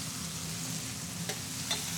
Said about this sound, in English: now it's beginning to kind of, the garlic is beginning to cook.